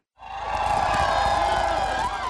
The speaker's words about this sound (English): Even in the wee hours of a cold night, the raucous, dense crowd stretched for blocks down Front Street to greet Olsom.